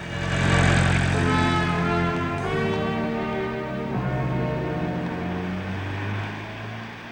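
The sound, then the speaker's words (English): A black cab taxi pulls up outside a flat: a steady, low engine drone with a strong harmonic hum that eases slightly in pitch and level, running throughout. “Harry pulls up outside Samantha's flat in a black cab.”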